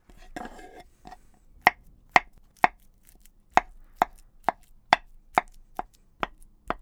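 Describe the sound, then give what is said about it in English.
Bananas being sliced with a knife, heard as a steady series of sharp, crisp taps against a cutting board, evenly spaced and ringing out over a quiet background. “We need the bananas. Okay. Peel them and slice them.”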